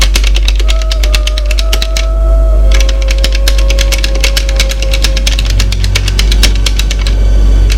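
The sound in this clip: Rapid typing on a computer keyboard in a husband's office: many sharp, steady keystroke clicks that run almost continuously, briefly pause, then resume, over a constant low hum.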